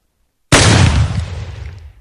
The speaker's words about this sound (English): Shotgun.